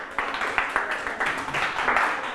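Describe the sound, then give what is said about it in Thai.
A class claps for a classmate, a fairly faint, uneven patter of hand claps from a small group that rises and falls slightly. “โอเคปรบมือให้เพื่อนหน่อยครับ”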